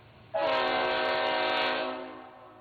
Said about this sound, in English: I have a model train that I picked up on a high-speed rail train in China. So a correct answer will hear this.